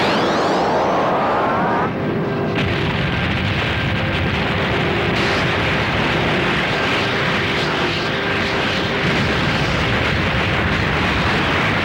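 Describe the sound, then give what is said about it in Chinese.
A space fortress's main cannon firing in an animated science-fiction battle, followed by a huge explosion: a massive, sustained rumbling roar that stays loud for about twelve seconds, with whooshing tones early on and humming tones running through it. “雷神之锤完成发射准备， 立刻发射。”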